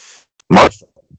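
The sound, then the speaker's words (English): A single sharp sneeze, loud and brief, bursting out of near silence, with only a few faint, soft sounds around it. “Who was that? You, was that, sneezed when you said, the name.”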